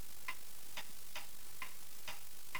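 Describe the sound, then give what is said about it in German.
A clock ticks steadily, six crisp, evenly spaced clicks at roughly two per second over a constant soft hiss, with no voices. “Diese Stille. Nur das Ticken der Uhr.”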